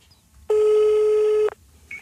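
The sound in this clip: A telephone call rings on the line as a single loud, steady tone lasting about a second, standing alone against a quiet background.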